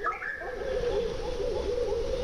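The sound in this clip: Low, hollow cooing of large dove-like birds, a steady hooting tone that holds throughout and wavers slightly, set against a dense wash of other background calls.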